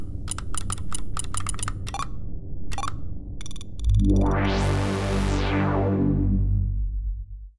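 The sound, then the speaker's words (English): Rapid clicking of a computer keyboard as a password is typed, in uneven bursts of keystrokes for about three seconds, followed by a loud, broad rushing sound that swells and then fades. “I'll just type that in.”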